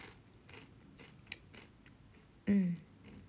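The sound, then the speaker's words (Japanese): Crunching on a rice cracker (okaki) flavoured with green laver: faint crackly chewing, then one loud, sharp crunch near the end. “なんかもらったおかきを食べてるんですけど、青のりの味がして、”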